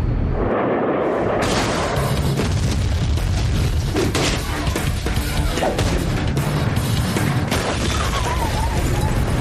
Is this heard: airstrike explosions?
yes

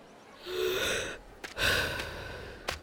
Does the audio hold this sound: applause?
no

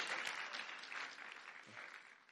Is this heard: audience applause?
yes

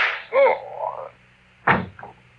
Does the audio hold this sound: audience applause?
no

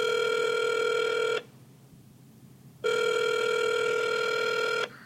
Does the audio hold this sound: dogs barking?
no

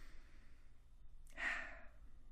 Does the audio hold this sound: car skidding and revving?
no

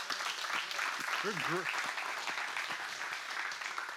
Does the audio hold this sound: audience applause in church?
yes

